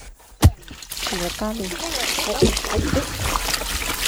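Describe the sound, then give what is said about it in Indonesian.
Water poured over sago fibres to wash out the sago starch makes a sharp splash, then a continuous splashing rush under a voice talking throughout. “Serat-serat yang mengandung tepung sagu ini disiram air.”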